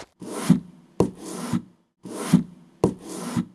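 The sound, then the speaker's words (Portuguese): Rhythmic wooden pounding and grinding of a pestle crushing rosemary sprigs in a mortar. Steady rubbing strokes with sharper knocks come in two short bursts, alone and moderately loud. “Para começar, vamos colocar os ramos de alecrim na alfomatriz e bater bem com o pilão e colocar no seu caldeirão.”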